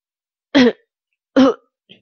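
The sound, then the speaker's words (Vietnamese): Dry coughs from behind a group of office staff: two short, harsh throat-clearing bursts, followed by a faint brief trace. “Tiếng ho khan phía sau làm cả đám nhân viên hoảng hốt”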